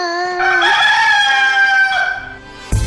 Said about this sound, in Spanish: Canta cuando amanece y vuelve a cantar cuando el día desaparece. ¿Quién soy? El gallo.